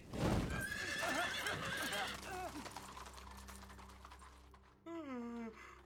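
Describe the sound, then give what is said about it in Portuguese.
Horses whinnying and neighing while hooves clop in a busy rattle. A loud, shrill neigh falls in pitch near the end. “Seus cavalos estão prontos.”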